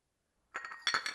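Light clinks from an emptied teacup of tea ring out in a few quick, bright taps of china, quiet and alone after a moment of silence.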